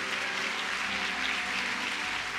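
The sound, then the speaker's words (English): Congregation applauding during a Sunday service at Christian Tabernacle church, a dense, steady wash of clapping that holds at an even loudness for the whole stretch, with no talk over it. “Somebody put your hands together.”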